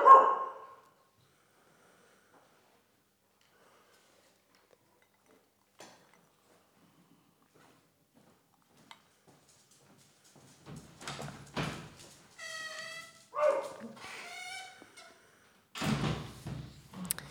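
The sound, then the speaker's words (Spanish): Pet dogs bark and yelp as a door is opened to let them in. After a long near-silence broken by a few faint clicks, a cluster of moderately loud barks comes in bursts near the end. “Voy a abrirles la puerta a las perritas. Un momento, por favor.”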